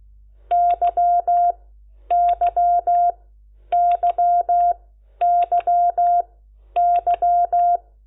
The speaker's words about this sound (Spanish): La Q son dos rayas punto raya. Y la Y es raya punto dos rayas, al revés.